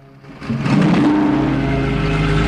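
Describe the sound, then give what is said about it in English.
A car drives away from a gas station pump, its engine surging up after a quiet start and settling into a loud, steady low rumble. “She drives off.”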